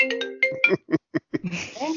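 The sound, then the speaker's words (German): A phone ringtone for an incoming call opens with a few short, bright melodic notes. A run of short, clipped sounds follows, and people talk underneath. “Oh, oh, Ein Anruf. Ja, lass ruhig laufen. Lass einfach ruhig laufen.”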